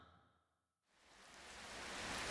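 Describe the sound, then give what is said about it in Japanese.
Rain falls at the start of a walk home after school: a faint, steady hiss that drops away briefly, then fades back in and grows louder. “げ、雨か。”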